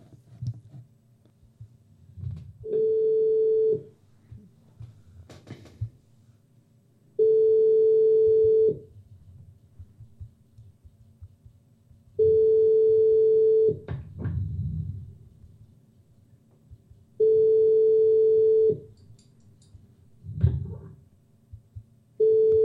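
Ringback tone of an outgoing phone call on a French line: four long, steady, evenly spaced beeps and the start of a fifth, separated by silences that carry faint clicks and low background hiss.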